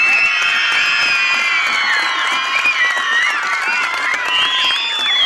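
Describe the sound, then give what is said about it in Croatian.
Athletes at a sporting event screaming and clapping together, a loud, sustained chorus of high shrieks and yells with clapping mixed in, steady from start to finish. “Sportaši, vi koji stojite ispred mene, da čujem kako ćete protivnike prepast najvećim vriskom i pljeskom za vas. Sad!”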